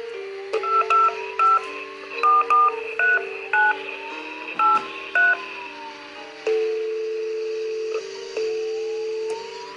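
Telephone keypad dialing tones sound as a call is placed: a quick, uneven run of short, clear beeps at differing pitches, followed by longer, sustained electronic tones as the line connects.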